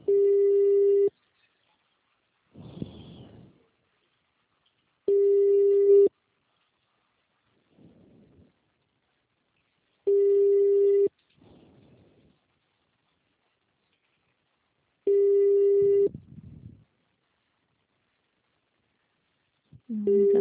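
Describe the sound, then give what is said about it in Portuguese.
Telephone ringing tone while calling a service line: a steady single-pitched buzz in about one-second bursts every five seconds. There are four full rings and the start of a fifth, with faint muffled noises in the gaps between them. “Tá chamando só. Da outra vez que eu também liguei, demorou bastante para eles atenderem, mas eles atendem, aí caiu.”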